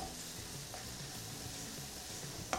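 Onions fry in a pan with a little salt while an Indian dish is being cooked. A soft, steady, faint sizzle runs throughout, ending with a short sharp clatter.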